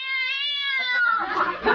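A cat sitting on top of a car gives a long, drawn-out, tonal meow that holds steady, then breaks into a rougher, noisier cry toward the end.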